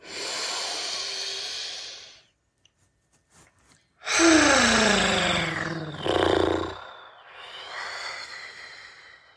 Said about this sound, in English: Let's start off as we do with two deep breaths. All right. Inhale.